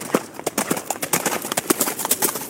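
Hooves of police horses clatter during mounted unit training, a busy run of many sharp, uneven clip-clop beats over a constant rough background noise.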